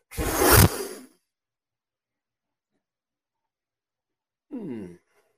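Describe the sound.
A person blows out one strong, breathy gust of air. After a pause of silence, a short voiced exhale follows.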